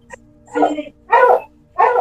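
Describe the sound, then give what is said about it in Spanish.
Dogs barking: three short, separate barks in an uneven rhythm, fairly loud against a quiet background. “¿Los perros?”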